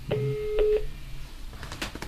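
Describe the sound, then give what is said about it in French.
Telephone dial tone on a phone newly plugged into a standard wall socket: a steady, low, even tone lasting under a second, followed by a few short bursts of sound. “Ah, c'est bon, il y a une tonalité.”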